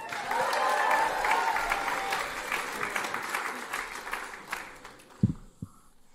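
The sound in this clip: Audience applause welcoming a six-year-old child speaker at a kids' takeover event: loud, dense clapping that swells early and then slowly thins out, with a couple of brief thumps near the end.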